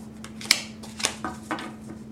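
A tarot card is drawn from the deck: a few soft, crisp papery flicks and snaps spaced across two seconds, fairly faint, over a steady low hum.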